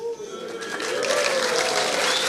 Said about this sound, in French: Là, ça applaudit.